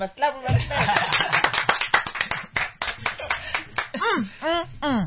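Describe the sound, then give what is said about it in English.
Hands clap in a fast, steady burst of many sharp claps to open a talk program. The clapping stops and a voice follows. “we must clap. That's how we open the show.”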